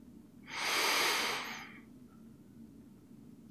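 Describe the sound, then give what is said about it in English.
A single long, loud, breathy inhale taken during a guided breathing exercise, rising quickly, holding for about a second, then fading, with near silence before and after. “On the inhale”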